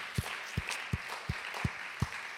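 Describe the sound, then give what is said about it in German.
A church audience applauds in honour of Jesus during worship. A continuous, fairly faint wash of clapping runs over six even, low thumping pulses. “Komm, ich lade uns ein, wir geben Jesus einfach einen Applaus zu seiner Ehre.”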